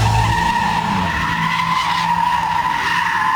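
Tires screech as a car drifts and skids in Gaziemir, Izmir, a loud, continuous, steady squeal that holds for the whole clip with no voices.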